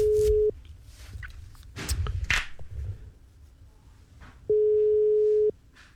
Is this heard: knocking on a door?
no